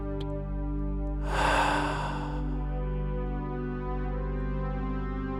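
A person's breathing: one slow, airy breath swells and fades over about a second, heard alone above a steady low hum.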